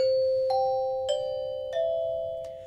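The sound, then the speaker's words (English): Bright, bell-like tones from a children's aluminium metallophone bar mounted over a resonating pipe. Several strikes ring out in turn, each with a long, clear sustain that overlaps the next and slowly fades. “And then we also have they're like a individual metallophone. So it's basically an aluminum bar over top of a pipe that allows it to resonate. And they sound like this.”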